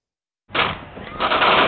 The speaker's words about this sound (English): Gunshots.